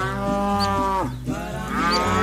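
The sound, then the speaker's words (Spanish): A dairy cow gives one long, deep moo that dips in the middle and then swells back up, loud and steady throughout. “En Ibera tengo una vaca lechera, no es una vaca cualquiera.”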